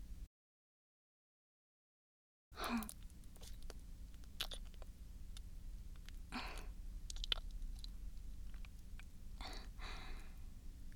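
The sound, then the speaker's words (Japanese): Wet sucking and licking of a hard candy, with soft irregular clicks and smacks over a steady low hiss, after about two seconds of silence. “いただきます。”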